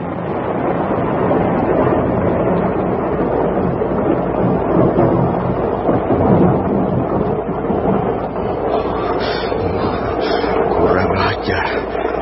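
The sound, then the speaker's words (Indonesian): Thunderstorm with strong wind and rain, heard as a dense, loud, continuous roar that stays steady throughout, with a low rumble beneath the broad rushing noise. “Tiba-tiba angin bertiup kencang, mendung tebal bergulung-gulung datang. Rakuti tidak peduli, dia terus berlutut. Dan sebentar kemudian, hujan pun membasuh permukaan bumi.”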